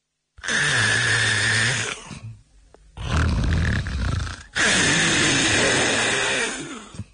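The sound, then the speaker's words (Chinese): A storyteller's voice imitates loud, roaring snoring in three long, drawn-out rasping breaths, each separated by a short pause, deep and surging like crashing waves. “脑袋一挨枕头这就打呼噜，程咬金这呼噜打得开绝，声如海潮”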